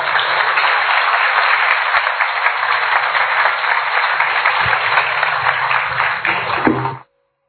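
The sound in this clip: An audience applauds to welcome a guest speaker, with steady, dense clapping that holds at an even level for several seconds and then stops abruptly.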